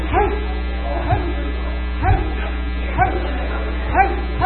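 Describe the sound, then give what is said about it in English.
A voice imitates a big dog barking: about five gruff, deep woofs at a steady pace of roughly one per second, over a constant low hum. “And then we're going to do the big dog. We're going to go,”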